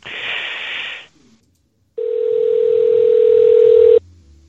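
While a phone call is being placed, a telephone dial tone plays. A brief hissy burst comes first, then a short pause, then a loud, steady mid-pitched tone that holds for about two seconds before it stops.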